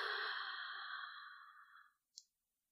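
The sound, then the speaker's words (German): Long, deep breath out during a guided breathing exercise: a soft airy exhale that slowly fades over about two seconds, followed by a brief faint click. “Dann atme noch einmal tief ein und lange aus.”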